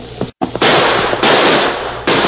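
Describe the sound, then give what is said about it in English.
Gunshots fired during a fight: a few loud, sharp cracks in quick succession, each trailing into a long, dense, noisy roar that fills the gaps between them. “That last shot hit home.”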